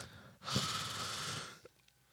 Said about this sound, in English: Do you want to make breath noises?